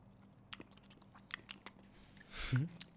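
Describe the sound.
Someone tastes a spoonful of Danway chocolate spread with faint mouth clicks and soft smacking, a few small sticky sounds, ending with a brief low hum of voice.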